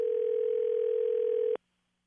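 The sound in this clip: Telephone ringing as radio hosts call a contest listener: a single steady, even ring tone that holds for about a second and a half and then cuts off abruptly into silence.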